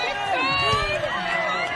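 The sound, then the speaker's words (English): Spectators yell and shout at a log-splitting contest, a dense, loud mix of many raised voices that holds steady through the moment. “The crowd is yelling, "Don't let the dark side win."”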